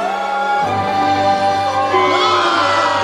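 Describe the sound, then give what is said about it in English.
A crowd chants the surname Byrne in long, drawn-out 'Boo-erns' that sound like booing. The many voices hold low, sustained tones, with a few higher shouts rising toward the end. “Smithies, are they booing me? No, they're saying Boo-erns. Boo-erns. Are you saying boo or Boo-erns?”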